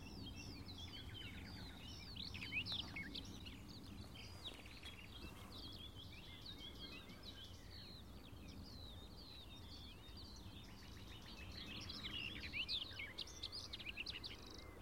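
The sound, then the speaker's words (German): A warbler sings a bubbling, hurried, sometimes tumbling melodious song with a nightingale singing alongside. Many rapid high chirping phrases run throughout, steady and moderately faint over a low background rumble. “Wieder dieser plätschernde, sich manchmal überschlagene, hektisch vorgetragene, wohlklingende Gesang. Dieser Grasmücke begleitet von der Nachtigall.”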